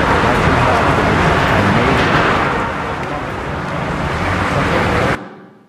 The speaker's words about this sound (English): you can probably identify traffic noise and cars directly